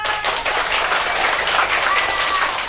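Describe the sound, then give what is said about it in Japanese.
Audience applause at a storytelling event: a dense, continuous clatter of many hands clapping together, holding an even, full loudness from start to finish. “蛇の出てくるお話は嫌だという人、やってほしいという人、拍手。”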